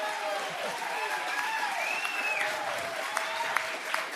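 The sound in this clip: Live studio audience applauding before a roundtable panel, steady, dense clapping throughout with crowd voices mixed in.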